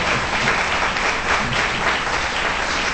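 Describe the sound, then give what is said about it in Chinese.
Steady applause from a church audience at a worship gathering: dense, continuous clapping that stays loud and even throughout, with no breaks. “哈利路亚，我们真的应该多多的向主耶稣鼓掌”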